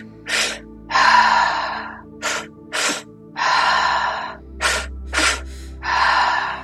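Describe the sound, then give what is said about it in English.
Breathwork breathing done through the mouth: quick sharp inhales into the belly and then the chest, each set followed by a longer, audible breathy exhale. The pattern repeats about three times with no talking. “inhaling, filling up the belly, inhaling again, filling up the chest, and then exhaling. So we're going to use our mouth more for this one, so it's a little bit more activated and releasing. And it's going to sound like this.”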